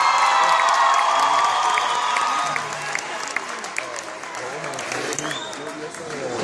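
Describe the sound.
An audience at a live music concert claps and cheers, a loud dense wash of applause with whoops and shouting that eases slightly after the first few seconds.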